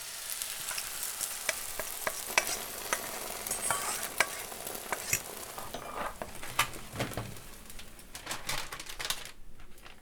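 Onion and paprika sizzle in a frying pan: a steady crackling hiss broken by many sharp taps and scrapes of stirring, with no voices.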